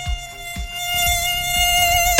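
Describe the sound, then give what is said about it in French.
A tiger mosquito buzzes in flight: a steady, high, reedy whine with rich overtones that holds for the whole clip at an even, fairly loud level, with a few soft low thumps underneath. “Il a interdit à tous les moustiques tigres de voler.”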